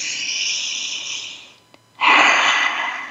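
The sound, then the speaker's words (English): A group breathing in together during a community gathering: a steady airy hiss of many breaths, a short near-silent pause, then a louder, fuller rush of breath that slowly fades. “So let's breathe that in together as a community.”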